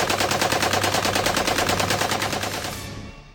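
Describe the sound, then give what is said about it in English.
A .50 caliber machine gun fires from a roof turret, a loud, rapid and evenly spaced burst of shots that runs for about three seconds and then tails off and fades. “Well, my dear, you're going to man that 50 cal on the roof turret.”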